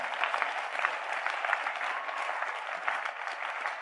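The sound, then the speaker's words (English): A church audience claps their hands for themselves in dense, steady applause. The many overlapping claps form an even, bright texture that holds for the whole stretch without breaks. “Already you have done very well. Clap your hands for yourself.”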